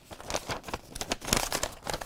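A sheet of paper is crumpled up in the hands, producing a dense run of crackling, crinkling bursts that continue steadily without pause.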